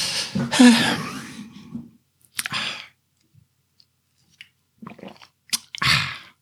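Someone takes a sip of a drink: a wet, slurping burst comes first, then scattered faint clicks, and another brief wet burst near the end.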